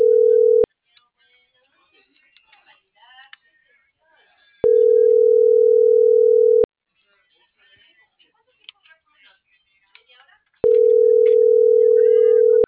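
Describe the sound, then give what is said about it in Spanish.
Telephone ringback tone before a call goes to voicemail: long, steady, mid-pitched tones, three in all, with the first and last cut off, separated by pauses holding faint murmuring and small noises. “Ve, carnal, contéstame. Tu llamada se reenvió al buzón de voz.”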